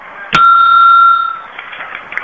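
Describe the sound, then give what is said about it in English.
A single bright bell chime signalling a page turn in a read-along letter book. One sharp strike rings into a clear, sustained tone that holds for about a second before fading into quiet. “When you hear the bell, turn the page.”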